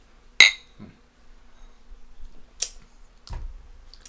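Aluminium cans of watermelon IPA are tapped together in a toast, giving one sharp, bright clink. Softer knocks and handling sounds follow, with no talk in between.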